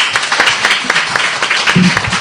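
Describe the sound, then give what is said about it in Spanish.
Clapping from a small studio audience on a morning show, distinct individual claps in a quick, uneven patter that stays moderately loud throughout. “Os merecéis un gran aplauso, ¿eh?”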